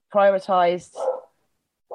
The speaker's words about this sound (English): Oh, that's my dog barking.